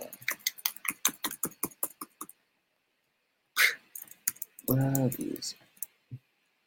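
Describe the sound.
Typing on a computer keyboard to search for reviews: a rapid, uneven run of sharp key clicks, then after a pause a few short voice sounds.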